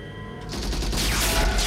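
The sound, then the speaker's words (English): A gunshot blast as Hobbs shoots off RoboCop's gun hand and sparks fly, a sudden loud burst that swells into a sustained, roaring, crackling wash. “Hobbs shoots off RoboCop's gun hand. Sparks fly from the severed limb.”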